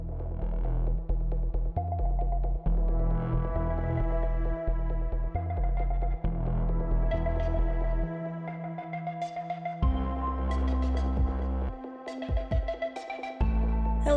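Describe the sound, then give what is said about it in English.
Electronic theme music with a heavy, throbbing bass pulse and a steady beat plays on its own. It shifts between fuller and sparser sections. “I gotta give a huge thank you to David B for creating this awesome track for me, the official Machine theme.”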